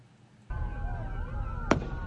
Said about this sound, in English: How many shots was that?